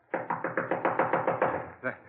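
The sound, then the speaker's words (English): Knocking on a door, a rapid, even run of many firm raps followed by a short pause and one final knock. “Knock again.”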